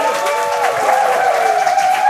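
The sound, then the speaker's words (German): Loud, steady applause from a studio audience greeting game show contestants, a constant clatter of clapping with sustained tonal sounds on top. “Und ein Applaus, bitte. Ja, ein Applaus für die Kandidaten.”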